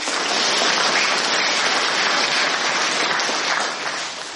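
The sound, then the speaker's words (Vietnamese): Audience applause at a meditation retreat talk: a thick, continuous wash of many hands clapping at a steady high level, easing off slightly near the end. “Cái câu này mới là vỗ tay đó.”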